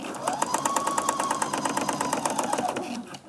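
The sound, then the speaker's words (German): A sewing machine stitches fabric up to a corner, a rapid, even run of mechanical stitching clicks over a steady motor hum that stops abruptly near the end. “Das sind jetzt die Ecken, die werden dann da bis zur Ecke genäht.”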